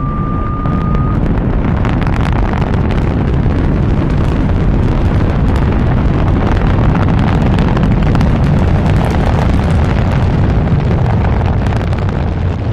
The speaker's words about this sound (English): Countdown for blastoff. X minus 5, minus 4, minus 3, minus 2, X minus 1, fire.